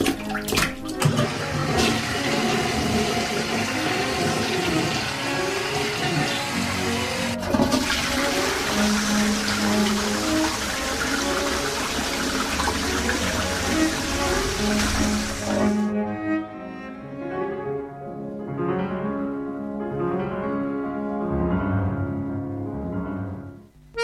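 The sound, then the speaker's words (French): A toilet flushing: a loud, steady rushing roar of water for about sixteen seconds, then it drops to a duller, quieter refilling gurgle that carries on to the end. “Tirez la chasse!”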